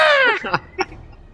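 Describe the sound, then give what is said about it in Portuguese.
A woman's short, high-pitched scream in a film scene, falling in pitch over a fraction of a second, followed by two brief, fainter sounds. “Aí a Jim grita, né, cara?”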